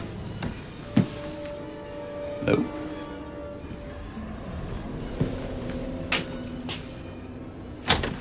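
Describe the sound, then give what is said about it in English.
A door closes upstairs, heard as a few soft knocks and clicks spread apart over a faint, steady low hum. “Upstairs, a door closes.”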